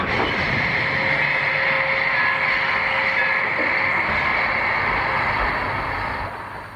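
A train runs on rails with a steady, dense rolling rumble and a broad hiss that holds level throughout and eases off slightly at the very end.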